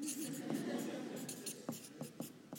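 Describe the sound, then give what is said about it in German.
Handwriting on a surface, a faint, steady scratch of a pen or pencil broken by several short, sharp strokes and taps toward the end. “Ich schreibe das hier mal hin, damit ihr das richtig checkt.”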